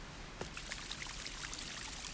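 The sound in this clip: Flowing water in Arita, Saga Prefecture, Japan, near terraced rice fields: a steady, full rushing wash of water that holds an even level throughout, with small splashy flecks on top and no voices.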